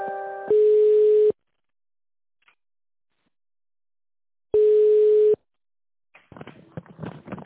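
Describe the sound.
Telephone line tones play while a call is being transferred. Two long, steady mid-pitched beeps are separated by silence, with a brief different tone at the start and some faint noise at the end.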